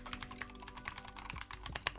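Rapid typing on a Keychron mechanical keyboard with Gateron switches: many quick keystrokes run together into a steady, busy clatter of sharp clicks, heard alone with no talking.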